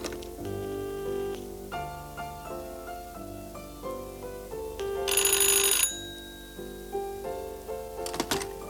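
A telephone rings in a loud, bright burst over a background of sustained melodic notes, followed by a shorter ring near the end, with no voices.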